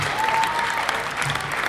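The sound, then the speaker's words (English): Basketball crowd applauding seniors on senior night, a full, steady round of clapping that holds at an even level from start to finish. “One last applause for the seniors on senior night.”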